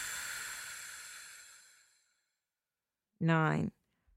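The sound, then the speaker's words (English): A long, airy exhale during a guided breathing exercise, a soft hiss that fades over about two seconds into silence, followed by a short voiced sound. “First breath in. 13, breathe out.”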